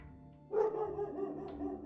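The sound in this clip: A dog gives a cautious warning bark, a single fairly faint bark followed by a short trailing tone, with no other voices.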